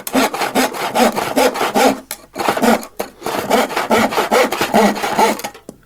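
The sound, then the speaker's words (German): A hand saw cuts wood in a carpentry workshop. Many rhythmic, rasping back-and-forth strokes sound loud and alone, with two brief pauses before the sawing resumes at a steady pace. “wo wird auch viel mit Holz gearbeitet? In eine Schreinerei. Genau, da hören wir mal rein.”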